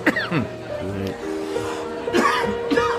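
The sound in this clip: Coughing after something went down the wrong way: a few harsh, choking coughs mixed with laughter and throat clearing, with people talking over and between them.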